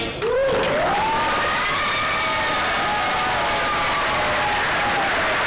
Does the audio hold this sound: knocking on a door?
no